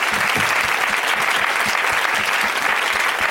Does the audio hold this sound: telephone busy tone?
no